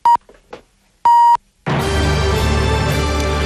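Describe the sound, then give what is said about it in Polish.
A Polish radio station's hourly time signal sounds: two clear, high-pitched beeps, the second longer, then a loud, dense sustained sound takes over. “za chwilę wybije godzina 8, oznacza to, że pora na serwis trójki. Ten sygnał oznacza, że ten moment nadchodzi.”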